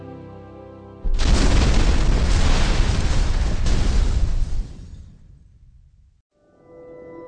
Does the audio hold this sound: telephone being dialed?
no